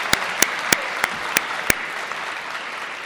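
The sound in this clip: An audience applauds a folk band with about six sharp, distinct handclaps over a soft crowd murmur, then the clapping fades out.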